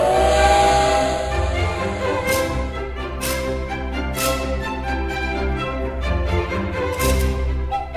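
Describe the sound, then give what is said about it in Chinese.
Steam whistle and hissing steam as a train departs, the whistle holding steady tones while several loud bursts of hiss cut in and out over a continuous low rumble. “各位小朋友请注意，音乐故事湾列车即将启动，请到第一月台搭乘。”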